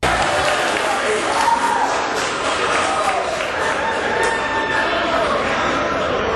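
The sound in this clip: A crowd cheers the first touchdown, a pass from Love to Dobbs, at a Buffalo Wild Wings: a dense, loud roar of shouting and chatter that holds steady for the whole stretch.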